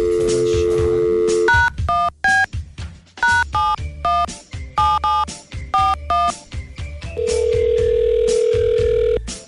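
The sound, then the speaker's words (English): A telephone call is dialed: a steady dial tone, then a quick run of many touch-tone keypad beeps with short gaps between them, and finally another long, even tone. “we're going to give him a call right now.”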